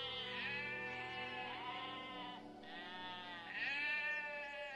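Bleating of a Pyrenean ibex, an extinct wild goat of the Pyrenees: a few long, wavering, nasal calls that follow one another almost without pause, loud and with no other sound.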